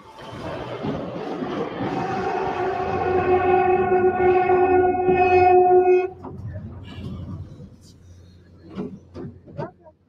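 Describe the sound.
Mexico City metro train, of the kind running on Lines 3 and 6, gives off a tonal motor whine that swells steadily louder, then cuts off abruptly. Quieter rumbling and scattered clatter follow.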